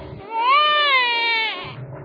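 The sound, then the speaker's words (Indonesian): A baby cries with a single drawn-out, high wail lasting about a second and a half. The cry swells quickly, holds steady and then breaks off, with quiet background before and after. “Tapi keponakanku tetap menangis.”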